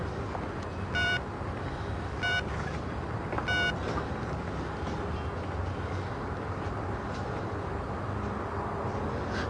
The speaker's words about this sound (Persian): خب یه زنگ بهش بزن، اگه اونجا باشه اون برات پیداش میکنه.